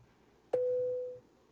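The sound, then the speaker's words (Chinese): A single steady electronic beep from a WeChat voice call, a clean mid-pitched tone lasting well under a second against near silence. “我打了，打一个关系比较好的异性朋友的微信，看他会不会接啊？”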